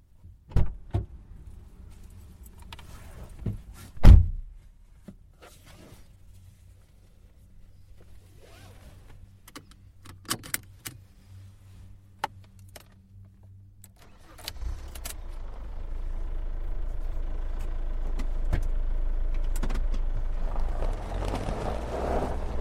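A car door and handling clicks, then a car driving on the road out of Austin heading west: a few sharp clunks and thumps early on, followed by a steady engine and road rumble that builds and holds.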